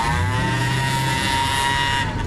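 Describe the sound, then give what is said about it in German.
A big car's engine drones as it drives away, a loud, even hum with a low rumble and bright overtones that holds steady almost to the end. “Fahr weiter, du! Fahr weg mit deinem dicken Auto! Mach ich doch gerade.”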